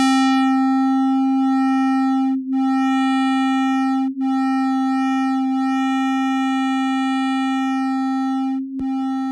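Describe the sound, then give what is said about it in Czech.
The sun's pulsations converted to sound without scaling: a steady, pure humming tone with bright overtones. It sustains evenly, broken by three brief dips in loudness. “I oscilace slunce jsem převedl na zvuk, ale pozor, v tomto případě nebylo potřeba škálovat, protože slunce pulzuje na frekvencích, které jsou pro nás pohodlně slyšitelné. Takže nebýt vákua vesmírného prostoru, znělo by slunce asi nějak takto.”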